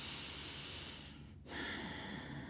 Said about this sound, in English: Right now, lately, I have been feeling fear and anxiety, and breathe through it.